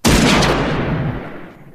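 A single loud gunshot fired at close range at a twelve-point buck at a deer camp: a sharp, heavy blast that rings out and decays slowly over nearly two seconds, with no voices.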